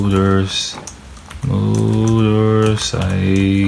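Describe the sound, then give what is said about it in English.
Rapid clicking of typing on a computer keyboard runs under continuous, loud talking, with the key taps blending into the voice throughout. “So let me type in 80s Japan”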